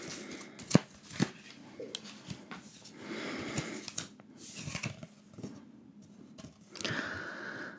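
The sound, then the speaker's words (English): Tarot cards are shuffled and handled as one is selected from the deck: papery riffling, rustling and light taps, with a couple of sharp snaps near the start. “Now selecting a card.”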